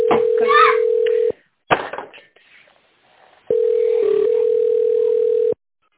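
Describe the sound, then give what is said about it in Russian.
A steady telephone dial tone hums while a call is placed, heard in two long stretches. Between them comes a short gap with brief voice and handling noise, and a voice also speaks over the opening tone. “Подожди, я звоню.”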